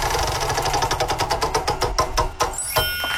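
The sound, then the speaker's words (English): A prize wheel is spun: a quick run of loud clicks slows down as the wheel loses speed, and the clicks stop after a few final ticks. A short bright tone follows. “We need to spin the wheel to find out what game we're playing today. You got the wheel? Let's spin it.”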